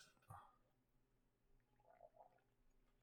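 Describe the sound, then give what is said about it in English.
Gargling, a short bubbly burst of liquid followed a little later by a softer, quieter watery burble, faint and with no talk. “Gargling.”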